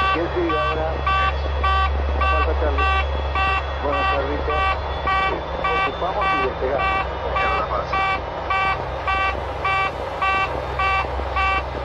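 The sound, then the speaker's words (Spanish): A cockpit alarm sounds in a LAPA airliner during takeoff: a fast, unbroken string of repeating electronic beeps in a steady rhythm over a low, constant engine drone. “la alarma sonó por 52 segundos cuando ya el avión había alcanzado una velocidad de decisión en donde ya no había vuelta atrás”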